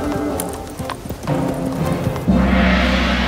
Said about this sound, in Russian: Это ужасно испугало коня, и он убежал.